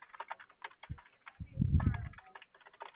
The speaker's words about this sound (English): I'm just getting your issue typed up here.